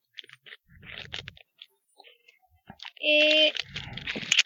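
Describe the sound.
A wrapped gift is cut open with scattered sharp clicks, snips and scraping rustles in short bursts. A louder, sustained scraping tone follows near the end.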